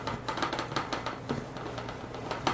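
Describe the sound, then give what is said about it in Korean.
Knife slicing thawed meat into thin pieces, a quick run of soft, repeated cuts in a light, steady rhythm at low volume. “저는 아주 적당하게 해동이 됐어요. 썰기가 너무 좋네요.”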